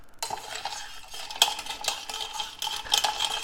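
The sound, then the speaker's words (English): Stirring of a gin and vermouth dry martini, mixed six to one, gives a continuous run of light metallic clinks and scraping against glass. The sound is quick and irregular with many small taps, fairly faint and without talk. “And then, like I said, I'm gonna stir.”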